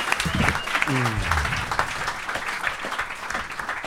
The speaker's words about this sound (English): A big round of applause for everybody.